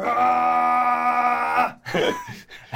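A person's loud, sustained roaring yell meant to scare off clawed monsters in a tabletop fantasy game, a drawn-out harsh bellow held for under two seconds before breaking into a few short voiced bursts.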